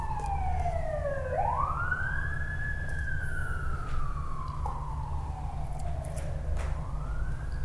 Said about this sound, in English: Somehow that seems like a really appropriate sound for living the Eightfold Path. It's because it's a wake-up sound, right? It's a siren.